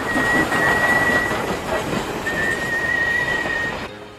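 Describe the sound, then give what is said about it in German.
An intercity train pulling into a station, with a steady, loud rumbling roar and a thin high squealing tone running through it that fades and returns before the sound cuts off abruptly. “Pünktlich wie jeden Sonntag um 21 Uhr fährt der Intercity Pythagoras ein.”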